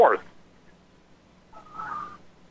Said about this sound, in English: And now we have a whistle